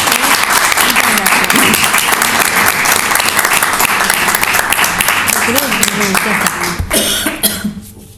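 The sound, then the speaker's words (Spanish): An audience at a book fair presentation applauds in dense, steady clapping that holds at full strength for several seconds, then fades away toward the end. “Un aplauso para ustedes.”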